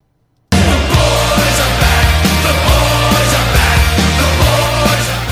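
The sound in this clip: A sports talk show's theme song bursts in after a brief silence, loud throughout, with a steady pulsing bass line and dense bright layers on top.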